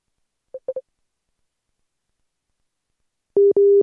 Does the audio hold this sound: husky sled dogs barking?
no